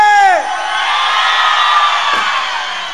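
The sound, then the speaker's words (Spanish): A church audience cheers and shouts loudly, a dense, sustained roar of many voices that stays strong for the whole clip. “Para que la iglesia nunca se olvide, una bulla bien fuerte.”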